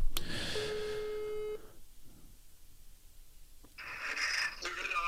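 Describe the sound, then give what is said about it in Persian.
A telephone call is placed: a steady electronic line tone holds for about a second, followed by quieter line hiss and then a burst of brighter, higher-pitched telephone noise. “من اجازه میخوام تا با ایشون تماس بگیرم تا شعر ایشون رو بشنویم و در خدمتشون باشیم.”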